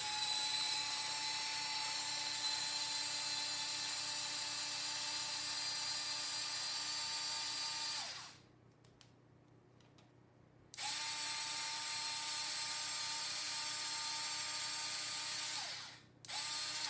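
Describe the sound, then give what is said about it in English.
A blender whirring through tuna spread ingredients, including mustard seed and pepper: a loud, steady, high motor whine that cuts out, starts again a few seconds later, then drops briefly near the end, with no talk. “So these are the ingredients we want to blend. Now, this will be noisy.”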